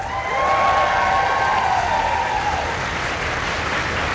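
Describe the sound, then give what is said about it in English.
Foreign Office staff clap and cheer as Ukraine's president arrives at Downing Street, a broad crowd noise of many hands and raised voices that swells early and then holds fairly steady. “Volodymyr Zelensky was also cheered by staff from the Foreign Office as he arrived for talks with the PM.”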